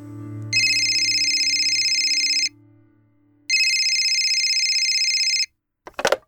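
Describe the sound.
A telephone rings twice, each ring a steady, loud, buzzing electronic trill lasting about two seconds, separated by a short quiet gap. A faint low hum sits under the start, and a brief clatter follows the second ring.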